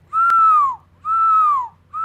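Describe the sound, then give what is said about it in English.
A person whistles in imitation of a lechuza owl's call, producing two long, steady notes that each dip slightly in pitch at the end. A third note begins just as the sound cuts off, and a brief click is heard early on. “everybody knows that the lechuza whistles. And if you try to get its attention, you whistle back.”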